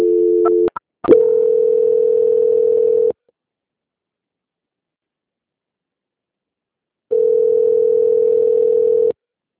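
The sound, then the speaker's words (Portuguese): A telephone line tone sounds while a call is transferred to a bank's quality-control desk. A few short beeps lead into a steady mid-pitched tone of about two seconds, then silence, then a matching tone. “Vou ficar mudo, mas eu vou transferir para o controle de qualidade do Banco Santander, tá bom? Tá bom. Só um momento. Transferência.”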